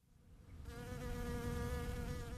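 Honeybees buzz around hives in a blooming almond orchard. A steady, droning hum swells in after half a second and holds at an even level, with no talk.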